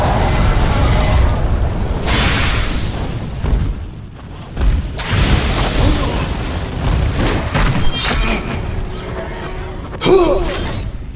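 An explosion bursting into flames during a battle on a mountain peak: loud roaring booms and a crackling fiery rumble that surge and fall repeatedly, with sharper cracking bursts toward the end.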